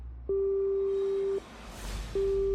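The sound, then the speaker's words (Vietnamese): A telephone rings with a steady, pure electronic tone in two long beeps separated by a short pause. The second beep is cut off at the end. “Chuông điện thoại của ông ấy reng lên.”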